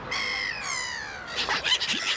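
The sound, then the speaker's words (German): Gull calls: two drawn-out, nasal cries one after the other, followed by a burst of harsh, rapid squawks, loud and alone with no talk. “Habt ihr es erkannt? Genau, es geht um Möwen. Im Urlaub am Meer habt ihr bestimmt auch schon welche kennengelernt. Die großen weißen Vögel mit dem gelben Schnabel und ziemlich großen Schwimmflossenfüßen.”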